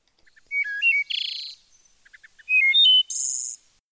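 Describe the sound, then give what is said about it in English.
A wood thrush sings two phrases, each opening with soft short notes, then clear fluty tones and ending in a high, buzzy trill, loud and alone against silence. “So here's a wood thrush.”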